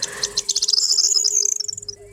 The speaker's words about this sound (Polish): jeszcze gdzieniegdzie będzie się odzywał taki oto ptak.